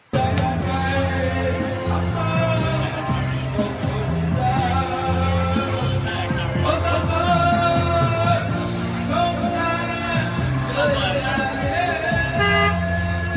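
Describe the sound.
Car horns honk in a dense, unbroken tangle of overlapping toots on a street in Vietnam. Steady loud traffic noise runs beneath the sustained, shifting horn tones for the whole stretch.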